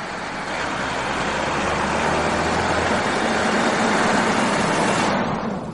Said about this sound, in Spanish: Caminan por una carretera y un coche pasa junto a ellos.